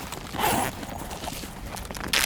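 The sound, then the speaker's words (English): A plastic beef jerky package is unwrapped during a hiking outing, giving papery crinkling and rustling in uneven bursts, louder near the start and again right at the end. “They just unwrapped the beef jerky. Yeah, I heard that.”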